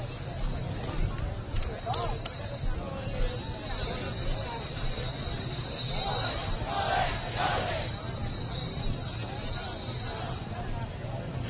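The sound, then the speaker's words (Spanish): Mules' hooves clop as they pull carts down a bridge and are held back a little, during the Huelva brotherhood's entry into El Rocío. The clopping continues under constant crowd hubbub and people talking. “la fila de adelante pues está frenando un poquito a los mulos porque vamos bajando el puente.”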